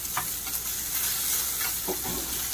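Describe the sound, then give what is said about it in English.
A spicy sausage meatball, pressed flat, sizzles in a pan over lowered heat. A continuous crackling hiss carries a few soft stirring scrapes, with no talking. “Smash it down a little bit if you want it. It'll help you cook a little quicker. Turn the fire down just a tad.”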